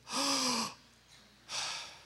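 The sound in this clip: An audience breathing together on cue, as if for a stethoscope check, makes two loud breathy whooshes separated by a short quiet gap, the first slightly longer and carrying a faint voiced tone.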